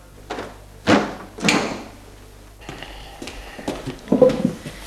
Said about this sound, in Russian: С вашего разрешения я открою окно, душно.